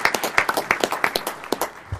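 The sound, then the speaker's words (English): Applause from a civic meeting audience welcoming a new city commissioner: many sharp, scattered hand claps in a brief, thin burst of clapping. “we've got a new city commissioner, and it's Commissioner Nick Fish. Could we all give him a hand of welcome?”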